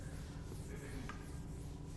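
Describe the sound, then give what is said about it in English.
Erasing of writing, a faint, steady scratchy rubbing that continues without pause and with no talk over it. “What it says instead is that I need to erase some things.”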